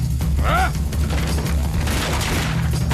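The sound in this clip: Sustained gunfire: a dense fusillade of shots with heavy booms runs through the whole clip, and a brief shouted voice cuts in near the start.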